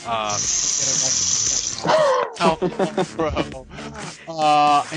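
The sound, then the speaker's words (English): A toilet flush gives a hissing rush of water for the first couple of seconds under people talking, then the voices carry on alone. “Ooh, a flush. That was extra special.”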